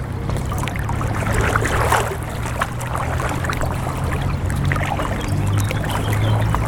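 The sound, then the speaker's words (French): Water sloshes and splashes steadily as someone walks through water on a usually dry path that has flooded, a continuous even wash of sound with no clear separate steps. “on commence déjà à marcher dans l'eau”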